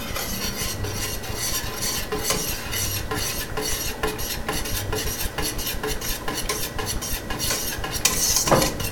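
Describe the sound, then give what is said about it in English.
A mixture with vanilla is being stirred in a bowl, producing a steady, continuous scraping and rasping of utensil against the bowl that runs throughout with small irregular knocks, and no talking. “I think a little more came out than I thought would, but that's okay. Now we're gonna stir this up.”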